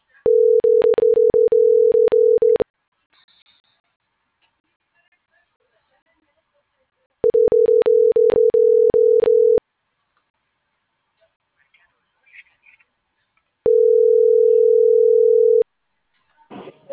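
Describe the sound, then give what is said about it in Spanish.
Ringing tone on a small telephone while a number is dialled: three steady tones of about two seconds each, separated by quiet gaps, the first two overlaid with rapid clicking. “Y le estoy marcando de los dos de aquí, del telefonito.”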